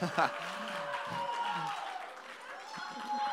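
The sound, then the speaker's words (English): A church audience claps for guests standing at the front during a service. The clapping is light and fairly faint, and someone keeps talking over it. “They're going to, yeah, they're incredible. You can clap for them.”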